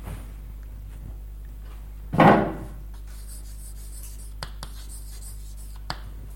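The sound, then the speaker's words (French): Writing on a board: one loud, scratchy scraping stroke stands out in near silence, followed later by a few faint taps and ticks. “voilà, vous savez lire? Bon. Et en dessous, on pourrait écrire”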